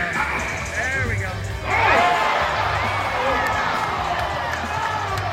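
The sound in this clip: A steady roar from a basketball crowd as fans and teammates rush the floor to congratulate a one-armed player after his dunk, swelling louder midway and holding at a dense, noisy level throughout.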